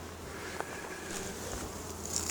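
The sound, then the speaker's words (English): Honey bees buzz around an open hive in a steady, moderately loud droning hum, with a few brief individual wingbeat whines rising out of the swarm and no talking. “And the bees are starting to get a little goofy, so I'm gonna smoke everybody one more time.”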